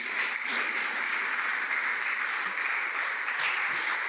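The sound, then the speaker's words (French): An audience at a religious New Year gathering applauds a president as he walks to his seat. The clapping is dense and steady and holds at an even level throughout. “Acclamons toujours le président pendant qu'il se dirige vers sa place.”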